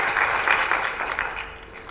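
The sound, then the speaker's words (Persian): Audience applause during a talk on happiness and wealth, a steady wash of many hands clapping that holds loud and even, then eases slightly toward the end. “هر چیزی اول با آفرین برایش یک دست بزنید”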